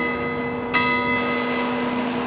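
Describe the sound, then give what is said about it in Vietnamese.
The Spassky Tower clock of the Kremlin chimes, with one clear bell strike ringing out over the long, sustained hum of earlier tones. The deep, resonant ringing lingers and slowly decays. “Từ trên đỉnh tháp Spassky, đồng hồ điện Kremlin đều đặn gióng lên những hồi chuông trầm hùng, thánh thót ngân Nga, lan tỏa khắp nước Nga và thế giới qua đài phát thanh Moscow”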